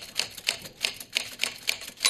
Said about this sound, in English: They dictate letters, and she types it on the typewriter.